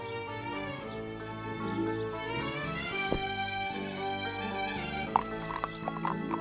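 A donkey's hooves clop as a farmer rides off to check his vineyard, a few scattered hoof strikes set against a steady musical backdrop.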